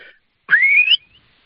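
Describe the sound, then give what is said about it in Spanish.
A shepherd's single sharp, dry whistle orders sheep to stop; the bright, piercing tone rises in pitch over about half a second, then cuts off abruptly, standing alone against near silence. “Ahora a la oveja le quiero dar una orden de que se pare y no ande y no pase de donde están, y le habría un silbido muy seco”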